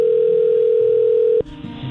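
A telephone dial tone holds as a steady, loud, unbroken hum for about one and a half seconds while a number is about to be dialled, then stops abruptly and leaves faint background noise.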